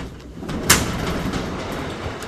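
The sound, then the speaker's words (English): A small garage-style door in a wine warehouse is pushed up. A sharp clack is followed by a steady rolling rumble as the door slides open and keeps moving. “strides over to a corner of the warehouse and pushes up what looks like a small garage door”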